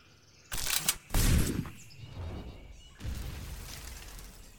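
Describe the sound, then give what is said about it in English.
A sci-fi phaser fires at a tree: two loud, sharp blasts in quick succession, followed by lower, fading rumbling noise and another swell of noise near the end. “Think about the phaser. You tell it what you want it to do.”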